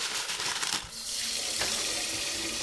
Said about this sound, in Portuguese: lava o tacho e despeja um quilo de arroz